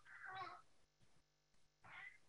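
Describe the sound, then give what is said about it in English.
A house cat meows twice with high, wailing cries that sound like a crying baby. A quiet gap separates the two fairly faint meows. “If you hear a meowing, it's my cat. He sounds like a little baby here.”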